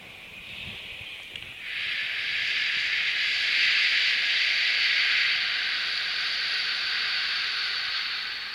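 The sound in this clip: A long exhaled 'shh' shushing sound, made as a breathing exercise to release tension: a steady, broad hiss that swells after a brief fainter start and holds for about seven seconds.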